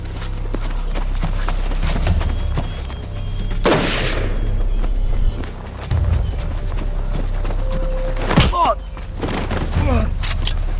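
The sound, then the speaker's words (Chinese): Gunfire as soldiers shoot at bandits: a few sharp, loud shots stand out against a busy, rumbling background. “快开枪！快开枪，这是土匪！”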